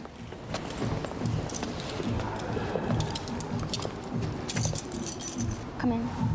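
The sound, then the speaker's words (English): Keys jangle and click in the lock of a front door in a block of flats, a bright clinking of metal that recurs in short bursts over low background noise. “She unlocks the front door and they go inside.”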